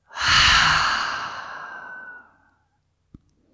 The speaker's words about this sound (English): Open the mouth, exhale it out.